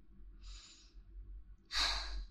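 A deep calming breath: a soft, airy inhale followed by a louder, longer breathy exhale, alone with no talk.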